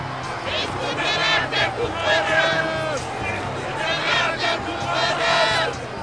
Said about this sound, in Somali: Laakiin aad bay u sii qayliyeen oo yidhaahdeen,